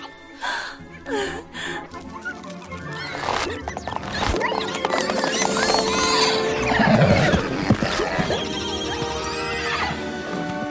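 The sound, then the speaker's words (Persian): Four white ceremonial horses whinny and neigh loudly, with a long whinny standing out over a busy, dense background of other sounds. “چهار تا اسب تشریفاتی سفید.”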